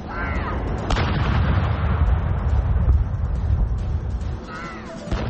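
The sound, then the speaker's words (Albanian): An artillery gun salute is fired in Green Park, London, in honour of the Queen. A few heavy booms sound over a continuous windy rumble, and crows caw briefly near the start and end. “Ajo nuk e ka shënuar publikisht rastin e saj, por nderimi me armë është bërë në parkun e gjelbër në Londër.”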